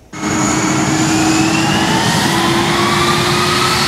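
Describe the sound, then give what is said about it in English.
Aircraft engines roar as flights arrive at Vancouver airport (YVR): a loud, steady jet rumble with a high whine that rises slowly in pitch, starting abruptly and holding throughout. “The flights continue to arrive. From all over the world, people landing at YVR every day.”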